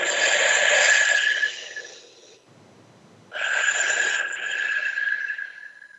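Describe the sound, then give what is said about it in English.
Quiet breathing in and out through the mouth, heard alone as two long, soft, airy breaths separated by a short pause. “you're breathing in through your mouth and out through your mouth, quietly. It sounds like this.”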